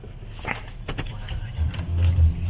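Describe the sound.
A car being driven at night on a hill road, a low engine rumble that swells slightly toward the end, with muffled voices talking underneath.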